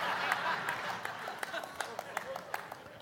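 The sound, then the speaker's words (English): An audience claps for a pastor's son who has just sung, a fairly even run of many sharp, moderately loud claps over a low murmur. “Now, hang on. It's good. You can clap for him. That's good.”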